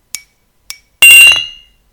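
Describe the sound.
Glasses clinking together in a toast: two light, high taps in quick succession, then a louder bright clink that rings and fades over about half a second, with no voices.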